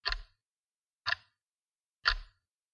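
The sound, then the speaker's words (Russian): A clock ticks three times, one crisp tick each second with silence between, fairly faint and with no voices. “Наступила пауза, и только часы с безразличием взрывного устройства продолжали”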